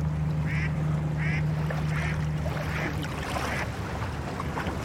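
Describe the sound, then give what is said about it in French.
Low, steady engine drone from a flat barge carrying sand as it passes on the water. The hum holds for a few seconds and then fades, with a few short, quack-like calls above it and no voices. “Il y a un bateau là qui passe, une péniche, qui a l'air de transporter du sable, vraiment très plate.”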